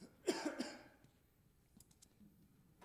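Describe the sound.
A short, rough throat clearing by a man leading a morning church service. A quick burst of two or three harsh rasps is followed by near silence with only faint small noises.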